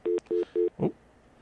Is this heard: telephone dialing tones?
yes